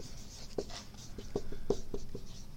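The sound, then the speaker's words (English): Words handwritten during a lecture, heard as a series of short, scratchy pen strokes and light taps. They come in quick irregular bursts over a faint background, with no voices. “I'm going to write three words here.”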